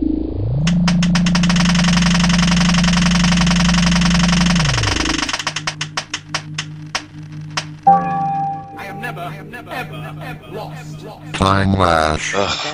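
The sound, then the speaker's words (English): A spinning prize wheel gives a steady mechanical whir for about five seconds, then a run of ticks that spread further apart as it slows, followed by a few scattered brief knocks and clatters. “I'm rolling up my sleeves. I am going to roll the Wheel of Who. Ready? Ready.”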